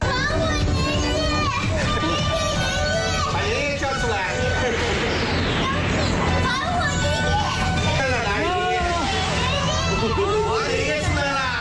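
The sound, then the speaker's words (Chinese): Lively children's voices play, chatter and call out with a 75-year-old man at his old home in Shaoxing, a continuous busy babble of young voices. “是的，我们听到和老人呢和很多的小朋友在一起互动啊，这个老人家也特别的开心。”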